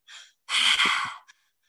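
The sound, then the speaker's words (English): Breathing exercise with air drawn into the belly, up into the chest and out through the mouth: a short soft airy breath, a pause, then a longer, louder, rushing breath with a faint click at the end, no talk. “the breath pattern that we're going to do is called the triactive breath. So it's into the belly, up into the chest, and out through the mouth. So it sounds like this.”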